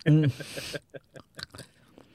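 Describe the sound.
Crunchy squid snack being chewed, with several crisp bites and crackles in an uneven rhythm following a short burst of voice at the start.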